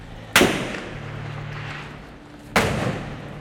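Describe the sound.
Gunfire: two loud, sharp shots spaced about two seconds apart, each a sudden crack that trails off in a rough, fading echo.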